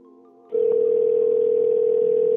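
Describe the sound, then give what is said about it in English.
A telephone tone sounds while someone places a call. After a brief, quieter tonal segment, a loud, steady, unbroken tone begins and holds to the end. “I'm going to keep calling until he gets really annoyed.”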